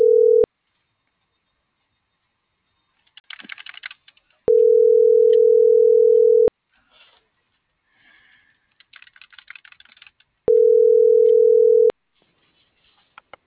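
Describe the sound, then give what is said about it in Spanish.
Telephone line tone sounds while a call is dialed: a steady, low tone in long, even bursts separated by gaps, with a short one at the very start. Keyboard typing and clicking fill the pauses between tones. “Y le estoy marcando a la 114 de Godoy.”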